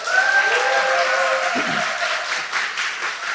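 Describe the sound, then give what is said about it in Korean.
A church audience applauds to welcome back a returning deacon. The clapping is full and continuous, staying even in loudness throughout with only a slight dip near the end. “우리 박수로 한번 또 환영하시고”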